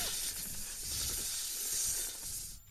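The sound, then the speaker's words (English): Snake hissing: a steady, breathy hiss that holds almost evenly for under three seconds before cutting off at the end. “I don't know what that sound was. That was a snake.”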